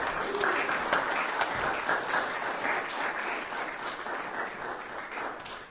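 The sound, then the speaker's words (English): Audience applause at a poetry reading, even and continuous clapping from a crowd with no break across the few seconds. “That is Ryan. Give him a hand.”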